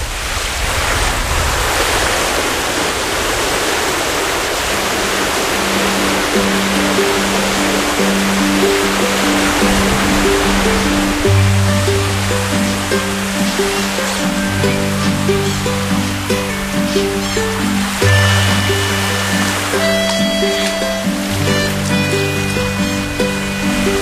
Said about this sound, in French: C'est une piscine, en fait, c'est comme une digue qui a été construite dans la mer. Et c'est une piscine en pleine mer. Elle se remplit quand la mer monte